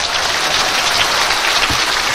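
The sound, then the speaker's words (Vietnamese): Loud, dense applause fills a Buddhist temple for blind visitors, as many hands clap at a steady, continuous level throughout without any break or voices. “Cho nên người khiếm thị về thiên quang rất là đáng quý, là về để tu tập. Chúng ta cho một tràng pháo tay.”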